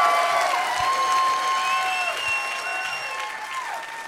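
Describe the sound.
A live audience in New Orleans claps and cheers for a guest, a full, steady burst of applause with cheering voices over it, tapering slightly toward the end.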